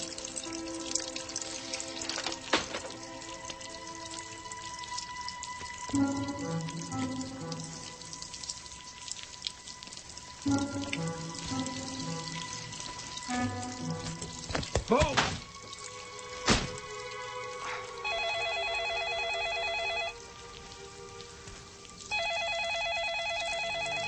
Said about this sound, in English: It's my damn waterbed. It sprung a leak.